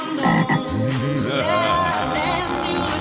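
A frog croaks in loud, throaty, rolling calls that run without pause for about three seconds.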